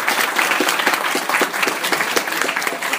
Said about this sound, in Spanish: Fuerte aplauso para ambos, por favor.